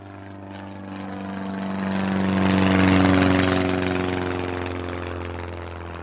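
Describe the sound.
Propeller airplane drones in flight, a steady, harmonic engine hum that swells gradually to a peak near the middle and then eases off again, heard alone without voices.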